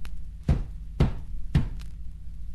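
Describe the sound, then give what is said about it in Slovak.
Three heavy knocks on a door, evenly spaced about half a second apart. Each is a loud, dull thud with a short ringing tail, over a low steady hum. “Zabúchaj na dvere.”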